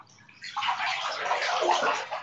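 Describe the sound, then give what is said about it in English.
Water pours steadily into a very large bathtub, a continuous bright rushing and splashing that holds at an even level for the whole stretch. “It's just such a big bathtub that like it takes a really long time to fill.”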